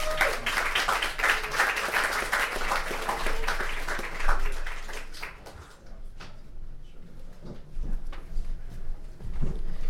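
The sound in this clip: An audience applauds to welcome an author at a reading series, with dense, steady clapping for about five seconds that then thins and dies away.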